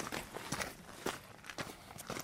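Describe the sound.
Quick footsteps of someone hurrying on foot toward a beech tree before sunset: a steady run of light, crisp steps at a brisk pace, heard alone without talk.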